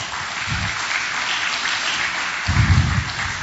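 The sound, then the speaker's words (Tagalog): A church audience claps in sustained, even applause from many hands, with a brief low thump in the middle and a louder one near the end. “Palakpakan natin ang Lord.”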